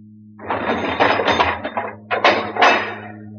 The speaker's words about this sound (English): I'll pull the bolts.